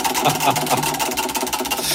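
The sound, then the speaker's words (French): A prize wheel spins during a cash-prize game, making a loud, continuous, rapid clicking rattle that stays fairly even for the whole stretch, with no talk over it. “Ah non, la laisse tourner. Stop. Attends, la laisse tourner jusqu'au bout.”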